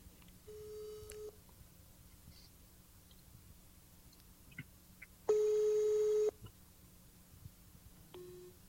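An unanswered phone call produces three steady electronic ringback tones separated by long quiet gaps. The middle tone is the loudest, and faint background noise sits beneath.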